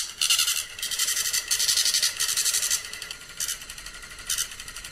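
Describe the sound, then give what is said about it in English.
A voting machine running its self-test prints a zero total tape, giving a series of high, whining printer bursts of varying length that stop and restart. No one speaks. “When you do that, this machine will produce what is called a zero total tape. The machine is going through a self-test analysis, and then it'll spontaneously turn on.”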